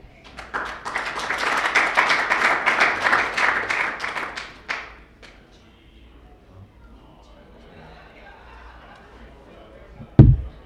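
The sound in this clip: Audience applause welcomes a speaker: dense, steady clapping for about five seconds, then a sudden stop into near silence, with a single loud thump near the end.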